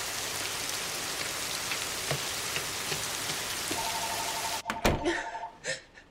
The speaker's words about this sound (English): She stops in the middle of the path and looks up into the pouring rain.